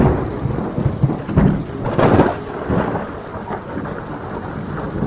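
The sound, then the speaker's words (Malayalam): A thunderstorm with heavy rain: a constant rainfall hiss runs underneath while deep rumbles of thunder swell and fade a few times through the first half, then ease back under the rain. “ഇടിയും മഴയും ഒരൊറ്റ ശ്രുതിയിൽ സമ്യക്കായ സിംഫണിയായി അതിൻ്റെ ഘനരാഗങ്ങളെ വിസ്തരിക്കുന്നുണ്ട്.”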